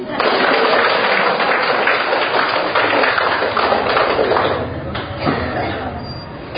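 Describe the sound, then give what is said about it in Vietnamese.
An audience at a Christian religious gathering bursts into loud, sustained applause, which eases slightly toward the end. “Vỗ tay đi.”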